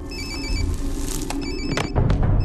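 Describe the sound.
A telephone rings in two bursts of a bright, high electronic trill, with low rumbling noise underneath and a sharper thud near the end.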